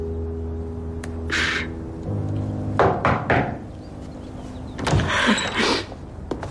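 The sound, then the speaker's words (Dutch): Someone knocks on a door in a few quick raps, grouped in two short bursts. Low, steady tonal sounds run beneath the knocks. “Plots klopt er iemand aan de deur.”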